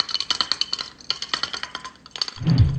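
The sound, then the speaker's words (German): Glass clinks as a beer bottle is opened: a quick run of many bright, light clinks and taps, a short pause, then a louder low burst at the end. “Ich denke mal, jetzt kann ich mir ganz entspannt ein Bier aufmachen.”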